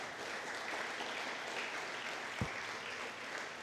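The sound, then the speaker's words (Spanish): Congregation applauding during a church service, a quiet steady patter of many hands clapping at an even level, with one brief low thump partway through. “Denle un fuerte aplauso a Cristo, aleluya.”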